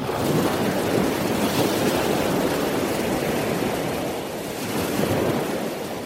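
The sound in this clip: Sea surf on the coast near Pointe de Goury in La Hague forms a steady, broad roar mixed with wind noise, dipping slightly before swelling again.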